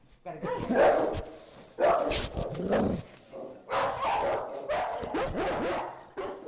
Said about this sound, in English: a curious pit bull who had ended up sniffing my mic before barking so loudly I had to jump back in surprise